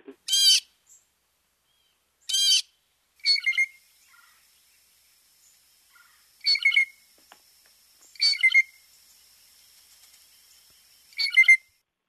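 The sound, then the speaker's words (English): A blue jay gives six harsh, raspy calls at irregular intervals, some doubled and some with a ringing tonal edge. The calls are loud and alone, with near-silence between them. “let's hear a bit of what a blue jay sounds like before we talk about Jemima Jay”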